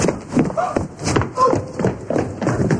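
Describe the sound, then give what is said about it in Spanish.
Hurried footsteps as a woman runs off to the bathroom, a quick, irregular series of thuds, with speech mixed in among them. “se marcha corriendo al baño y comienza a vomitar”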